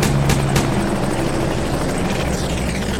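An aircraft, tagged as a helicopter, flying close overhead during a missile attack: a loud, steady roaring drone with broad rushing noise and a couple of sharp clicks near the start.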